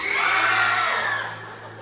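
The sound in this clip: Loud, sustained screaming from an audience at a live comedy show: a dense, high-pitched roar of many voices that holds steady, then eases slightly toward the end.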